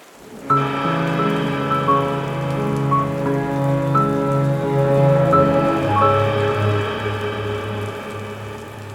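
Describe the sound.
Steady spring rain falling on a grave and its sheltering slab, a dense, continuous patter that stays loud and even throughout. No voices are heard.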